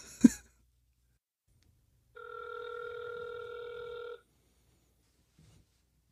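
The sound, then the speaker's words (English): An outgoing telephone call rings once: a steady electronic ringback tone lasts about two seconds after a short click, then quiet follows. “Call him up. Let's see how quickly it goes to voicemail this week.”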